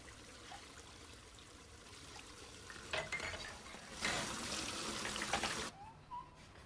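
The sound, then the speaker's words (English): Water runs from a tap in a bathroom with a steady hiss and splashing, swelling into louder surges before cutting off near the end. “She turns on the tap with trembling hands and grabs a glass. Having filled it, she struggles to get it to her lips. She gulps at the water and then drops the glass and splashes water onto her face.”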